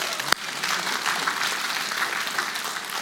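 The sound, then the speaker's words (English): Applause from a church audience: dense, even clapping runs throughout after a sharp click near the start, with no voices above it. “Give him a hand, give him another hand.”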